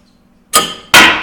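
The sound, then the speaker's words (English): Projectile gun fired level while balls drop to the ground: loud, sharp bangs come in quick succession after a near-silent start with a faint hum. “Okay, you do have to shoot the gun level. So of course, if it doesn't work, I'll blame it on the levelness of it.”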